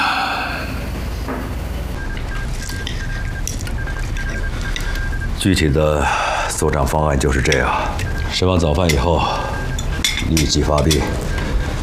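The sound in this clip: Cutlery clinks against tins and dishes while canned food is eaten at a breakfast table laden with meat. Bright metallic chinks recur through the second half over a dense, steady background, with voices talking.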